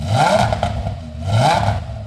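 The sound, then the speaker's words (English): A 10-cylinder Audi race car engine revs up in a shop, with two loud swells that rise and fall in pitch over a rough, clattering idle. “And that's a 10-cylinder Audi he's revving up in the shop.”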